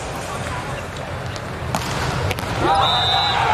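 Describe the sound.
A volleyball serve scores an ace during a match: two sharp ball impacts punch through steady crowd noise, and a high sustained tone follows.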